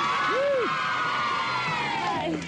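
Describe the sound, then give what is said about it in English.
A studio audience cheers loudly to greet a female rock singer on a television show, with crowd shouting and a whoop that swoops up and back down in pitch over a sustained roar. “Big cheer.”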